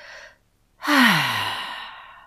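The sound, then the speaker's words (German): A person breathes deeply, with a short inhale through the nose, a brief pause, then a long, loud exhale through the mouth carrying a voiced, falling sigh-like tone that slowly fades. “Und dann atme nochmal tief durch die Nase ein und durch den Mund aus”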